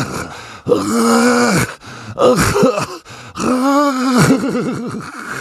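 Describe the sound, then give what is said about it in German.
Ghastly groaning comes from something under a bed at night: three long, loud, drawn-out moans with wavering, throaty pitch, separated by brief pauses. “Was war das? Woher kam dieses grässliche Stöhnen?”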